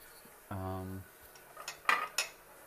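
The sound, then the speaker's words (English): Pots and utensils clatter while pasta is cooked: a sustained low metallic scrape, then a few sharp, bright clinks, with no talking. “But I'm cooking pasta.”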